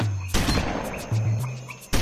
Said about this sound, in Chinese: 突如其来的枪声让他们都吓了一大跳。 好恐怖啊！ 枪声好像是从前面的树林里传出来的。